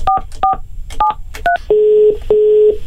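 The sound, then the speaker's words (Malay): Telephone dialing: four quick keypad tone beeps, each short and clear, followed by two longer, steady ringing tones. “Mari kita call”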